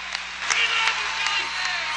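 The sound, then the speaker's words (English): Emotional applause from a stadium crowd of over 54,000 at Qualcomm Stadium in San Diego: a steady, dense wash of clapping and crowd roar with no breaks. “The crowd of over 54,000 faithful sees his image on the Diamond Vision screen at Qualcomm Stadium in San Diego and erupts in emotional applause.”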